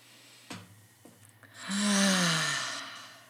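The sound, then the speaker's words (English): A long, slow exhale during a relaxation exercise, a soft breathy sigh that swells and then fades gradually over more than a second, preceded by a couple of faint short breaths. “Letting this release with the exhales. Letting your breath carry away any tension that was stored in your body.”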